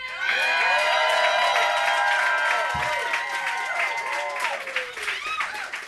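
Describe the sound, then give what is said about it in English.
Loud audience applause and cheering after a round of a live stage show, with whoops and shouts rising over sustained, dense clapping that continues for the whole stretch without easing. “All right, so you're going to make some noise for him. If you want to see Mallory Head come back to the stage, give it up.”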